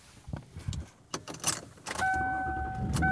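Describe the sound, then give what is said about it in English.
Car interior noise while driving home: a low rumble with a few scattered clicks and knocks, then a steady high tone joins partway through and holds to the end. There is no talk. “And I am driving home.”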